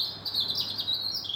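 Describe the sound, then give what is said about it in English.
A robin sings at night on a clear, quiet night. It is a thin, high, rapid warbling phrase with no pauses, fairly faint and heard alone. “And this is the sound of a robin, up way past his bedtime, singing his heart out into the darkness.”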